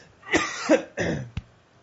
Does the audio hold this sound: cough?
yes